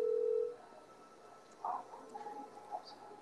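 A telephone is dialed in a film scene to call a friend. A steady tone gives way to a few short, faint keypad beeps spaced unevenly.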